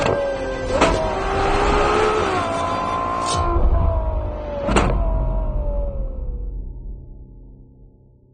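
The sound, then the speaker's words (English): A Ferrari 812 GTS with its F140 GA V12 and gas particulate filters roars, its raucous tone sliding lower between a few sharp gearshift cracks before fading out toward the end, with no talk. “This is, by the way, an 812 with gas particulate filters. But thankfully, it doesn't seem to have harmed it much. The F140 GA engine is as gloriously raucous as ever.”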